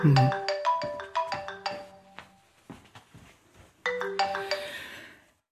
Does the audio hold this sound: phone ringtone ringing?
yes